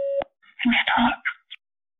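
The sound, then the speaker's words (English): A steady electronic beep prompts recording on a phone call, lasting about a quarter second, followed by soft, unclear speaking. “To connect live with this call, please record your invitation for this call. Record after the tone.”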